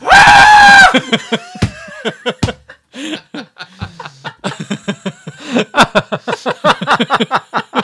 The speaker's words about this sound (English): The screaming goats—that's what they sound like. It's a goat scream. That's what it is.